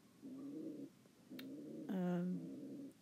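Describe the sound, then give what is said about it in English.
A tame pigeon coos indoors in a few low, soft, rolling phrases with short pauses between them. One phrase swells louder and fuller before the calls ease back to a gentle murmur. “If you can hear that noise in the background, that is Pedro, the tame pigeon I just mentioned. He's very happy.”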